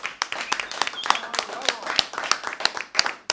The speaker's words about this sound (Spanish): Ahí está, muy bien, fuerte el aplauso.